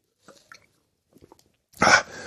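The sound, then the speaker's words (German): A person takes a sip of a drink: a few faint small clicks and rustles, then one short, loud, noisy slurp near the end. “Ach, ich muss einen Schluck trinken.”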